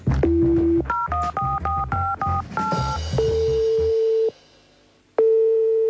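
Telephone dialing of a hotel room service number: a quick run of about seven two-tone keypad beeps, then a long steady tone, a short pause and another tone. No voices.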